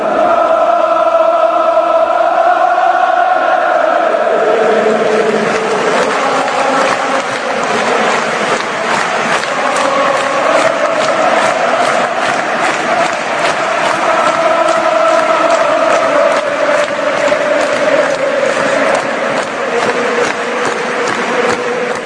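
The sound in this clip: Irish national football team fans fill a stadium stand, singing their unofficial anthem together in one slow, swelling mass of voices, loud and unbroken throughout.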